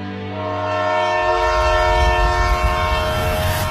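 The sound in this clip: A passenger train from Beijing runs along and sounds a long, steady horn, its tones holding throughout while a low rolling rumble builds beneath after the first second.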